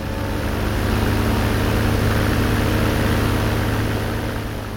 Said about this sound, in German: Dann wirft das Luftschiff seine Propeller an und hebt sachte ab.